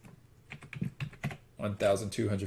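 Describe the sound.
Numbers tapped into a calculator on a keyboard: a quick, uneven run of light key clicks, then a voice begins speaking.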